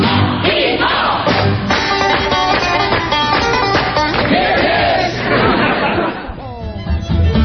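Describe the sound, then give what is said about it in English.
A Saturday night party crowd at the Ponderosa fills the air with loud, overlapping chatter and bursts of laughter from many people, thinning out a little near the end. “Well, we've had a lot of Saturday night parties here on the Ponderosa, but this is the best one we've ever had. Yeah, sure nice to have all the neighbors here, too.”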